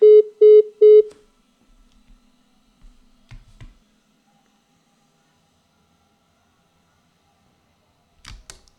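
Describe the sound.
A telephone number is dialed for a call: three short, evenly spaced keypad tones, then near silence broken by a few faint clicks and a later soft knock-like tap.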